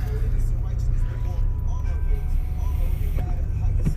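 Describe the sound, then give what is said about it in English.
A car driving gives a steady low rumble that runs under a person talking throughout, with a few faint clicks and knocks on top. “And so I'm gonna go ahead and get to driving, you know what I'm saying?”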